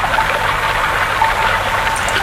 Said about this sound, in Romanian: Curând se desluși și pâriașul șerpuind zglobiu printre creste tocite de stânci cu apa limpede de cristal.